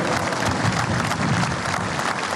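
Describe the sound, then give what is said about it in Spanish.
Sustained applause from a crowd during a minute-long tribute at a Venezuelan military decoration ceremony, a thick, unbroken roar of clapping held at a steady, fairly loud level. “Culmina el minuto de aplausos.”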